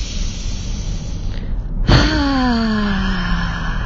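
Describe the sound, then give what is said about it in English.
A deep breath drawn in through the nose and released out through the mouth during a guided breathing exercise, ending in a voiced sigh that slides down in pitch, over a steady background hiss. “your first breath coming in through your nose, out through your mouth, your eyes closed. And on the out breath, please make a sound, taking that first breath. Second breath.”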